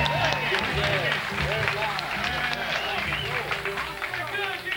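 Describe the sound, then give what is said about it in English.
Audience applause for the Shenandoah Cut-Ups band, a dense, steady patter of many hands clapping throughout, with crowd voices and chatter mixed in. “I wish you'd do me a favor and give the Shenandoah Cut-Ups a little hand of appreciation for the tremendous job they're doing. Would you make them welcome?”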